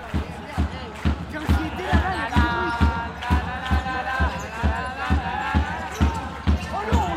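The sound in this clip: A basketball being dribbled during a cup quarter-final match in Dax. Crisp, low bounces repeat in a steady rhythm roughly twice a second, with voices murmuring in the background.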